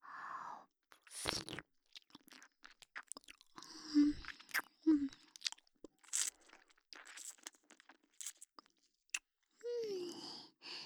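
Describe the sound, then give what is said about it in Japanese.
Gentle ear-nibbling and wet mouth sounds from an ASMR roleplay: soft clicks, smacks and light chewing-like crunches come in uneven bursts, with brief breathy sighs between them. “大丈夫、甘噛みにしといてあげますよ。”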